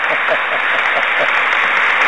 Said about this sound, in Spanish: Un aplauso al Papa Francisco, así nos despertamos.